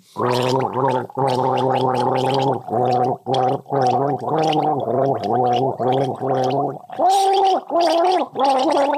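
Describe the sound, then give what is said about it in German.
A person gargles a mouthful of vodka to the tune of a pop song, producing many loud, bubbling, voiced notes in quick rhythmic bursts that rise and fall like a melody. “Und dann legst du den Kopf in den Nacken und versuchst ein populäres Lied zu gurgeln.”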